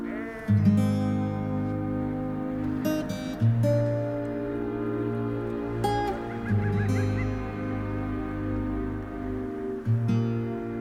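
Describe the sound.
Sheep bleating around a tent pitched among the flock in the mountains at night. A few loud bleats stand out against a sustained low tonal drone.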